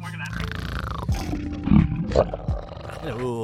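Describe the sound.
A voice imitates a dragon's roar with a rough, growling roar broken by a few louder bursts, ending on a short vocal sound.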